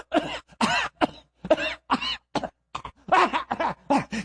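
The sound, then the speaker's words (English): A person coughs in many short, harsh bursts separated by brief pauses, with some throat clearing mixed in. “that's not really why I'm coughing like this”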